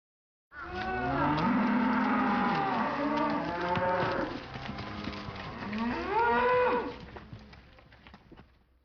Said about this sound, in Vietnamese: Đây là tiếng bò kêu